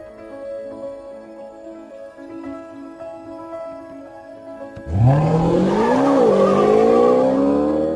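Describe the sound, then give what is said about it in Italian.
A Maserati car speeds through Paris. After a quieter stretch with a steady tone, a loud, harsh engine roar bursts in. Its pitch surges upward, wavers and eases, and it stays loud to the end. “Siamo a Parigi e siamo a bordo di una Maserati quattro ruote che sfreccia a folle velocità.”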